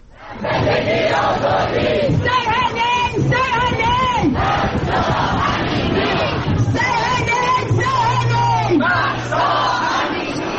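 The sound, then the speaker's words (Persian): Protesters in London chant slogans in support of Mahsa Amini and the Woman, Life, Freedom movement. The loud crowd voices keep up a steady rhythmic chant with no break. “این صدای گروهی از معترضان در لندن است که در حمایت از مهسا امینی و جنبش زن، زندگی آزادی شعار می‌دهند.”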